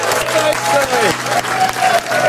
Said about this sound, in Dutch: dames en heren, maak een grote applaus.